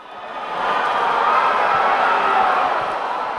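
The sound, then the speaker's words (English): A loud, hostile crowd of Chavistas, supporters of Maduro's government, at Caracas airport: a dense roar of many voices that swells over the first half-second and then holds steady. “NPR's Philip Reeves was in that noisy crowd and joins us now. Hi, Philip. Hi. What was happening there? Well, what you're hearing is a lot of so-called Chavistas. Those are supporters of Maduro's government and the ruling Socialist Party.”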